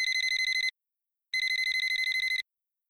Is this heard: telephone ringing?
yes